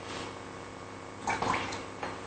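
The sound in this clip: Carbonated water is poured into a soy milk and flour batter. A faint, steady wash of sound swells into a brief louder splashing pour near the middle, then eases back, with a smaller splash just after.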